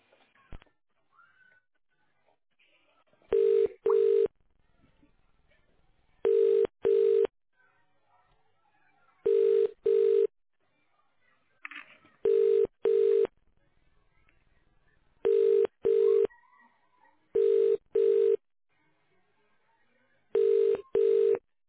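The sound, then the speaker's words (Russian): Touch-tone keypad dialing into an office's internal automatic telephone exchange: crisp electronic beeps in seven evenly spaced pairs, fourteen tones in all, separated by near silence. “Для соединения с абонентом наберите внутренний четырехзначный номер в тоновом режиме.”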